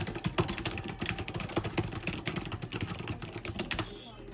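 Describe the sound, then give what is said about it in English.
Typing on a computer keyboard while writing in a Microsoft Word document: many quick, crisp key clicks in an irregular, continuous stream, fairly loud, easing off briefly at the very end. “Okay, so we can just type in”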